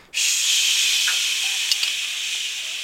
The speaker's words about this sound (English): You crack your... Crack the beer open. We'll cover for you.